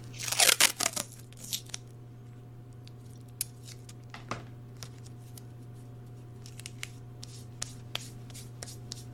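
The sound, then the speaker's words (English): Adhesive tape is torn and pressed onto a thigh: a loud crinkly tearing burst at the start, then scattered faint ticks and rustles over a steady low hum. “And then we'll just tape that to your thigh.”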